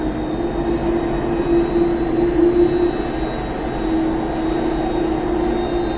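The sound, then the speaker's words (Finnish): A taxiing airplane turns left as a marshaller directs it, its engines giving a steady, loud drone with a sustained low tonal whine and a thin high hum above, no voices. “koneen täytyy kääntyä vasemmalle. Kone kääntyy.”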